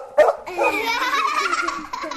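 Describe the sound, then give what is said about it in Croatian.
A dog barks with one sharp burst, then a long, wavering, high-pitched tonal cry that carries on for nearly two seconds, loud, with no talk. “A Neca ne ume da kaže Ogi. Zato Neca laje.”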